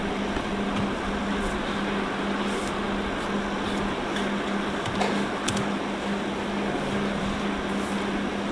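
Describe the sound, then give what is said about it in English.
A projector fan runs with a steady, even whirring drone and a low hum beneath it, with only a few faint ticks. “Turn off the projector.”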